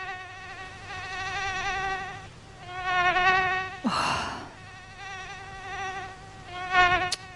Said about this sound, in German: Nervig, oder? Also das ist so ein Geräusch, da stehe ich dann nachts doch nochmal auf und mach Licht an. Weltweit gibt es schätzungsweise um die 3700 Stechmückenarten.